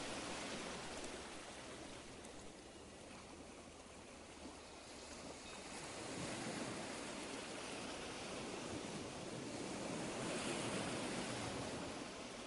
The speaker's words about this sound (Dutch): Je zwemt terug naar het strand en loopt de zee uit.